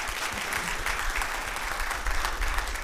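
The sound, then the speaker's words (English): A church audience applauding a first-time attender, with a steady, even burst of clapping from many hands that lasts a few seconds. “Do we have any first-time attenders? I see one back there. Let's give her a big hand for being with us this morning.”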